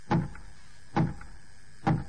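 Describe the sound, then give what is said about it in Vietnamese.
Heavy knocks of a huge fist on a giant oak castle door: three evenly spaced, dull thuds with a short ring after each. “Cánh cửa lâu đài tức thì mở ra.”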